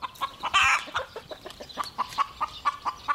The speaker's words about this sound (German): Jetzt im Moment, was wir gerade gehört haben, das war sozusagen dieses typische Geräusch. Ich bin gerade vom Nest aufgestanden, ich habe ein Ei gelegt, jetzt bewundert mich mal alle.